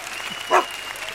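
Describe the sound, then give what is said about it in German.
Studio audience applause greeting the host of a puzzle show, a steady bed of clapping broken by one short, sharp accent near the middle. “begrüßen wir jetzt mit einem großen, mit einem warmen, emotionalen Applaus den wahren, den echten, den einzigen Herrn Müller.”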